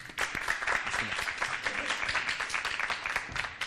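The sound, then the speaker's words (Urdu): Audience applause welcoming Team A onto the stage of a cooking competition: dense, steady clapping that holds at an even level for the whole stretch, with no break or swell. “تو نوبت آتی ہے team اے کی، درخواست کروں گی یہاں تشریف لائیں، ان کے استقبال کے لیے تالیاں۔”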